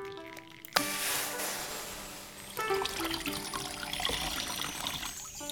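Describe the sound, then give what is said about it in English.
Water splashes and trickles as tattered rags are rinsed in a stream, a soft continuous wash that grows fuller and busier partway through, with no voices. “I am sorry I have little to send you with but these tattered rags. Let me rinse them first in the stream.”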